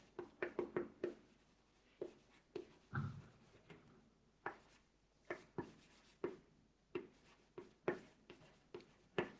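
Handwriting made up of many short, scratchy strokes in an irregular rhythm, fairly faint, with brief pauses between bursts of writing and no talk over it.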